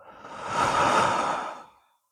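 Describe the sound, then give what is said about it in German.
A single long breath swells from quiet to a soft, airy rush and then fades away slowly over about two seconds, heard alone without any talking. “Schließ die Augen. Und dann atme mal tief ein. Und langsam wieder aus.”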